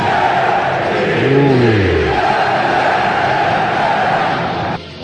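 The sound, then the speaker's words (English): A crowd chants loudly, many voices in unison forming a sustained roar with a rising and falling sung call, then cutting off abruptly just before the end. “It does get you fired up. You won't be hearing that chant Monday night.”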